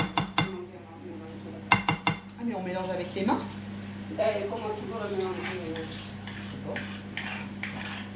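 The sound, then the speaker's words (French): A small spoon scrapes around a dish during cooking. A few sharp metallic clinks are followed by softer, uneven scraping and stirring, all fairly quiet. “Tiens, avec une petite cuillère, racle tout ce qu'il y a là autour. Mettez de la cuillère et racle comme ça.”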